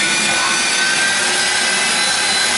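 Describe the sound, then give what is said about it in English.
A vacuum sucking all the air out of a bag gives a loud, steady rushing hiss with a faint whining tone running through it. It stays unbroken throughout, with no voices. “There, all of the air is being sucked out.”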